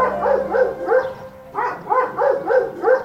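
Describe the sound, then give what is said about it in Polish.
A dog barking in a stage play: many rhythmic, mid-pitched barks in two bursts separated by a short pause, loud with no talk. “To tak nam szczeka, a to szczeka fantastyczny pies.”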